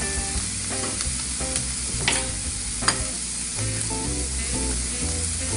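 Chopped spinach sizzles in a frying pan for an egg scramble, a steady crackling hiss broken by a few sharper stirring scrapes, with no talking.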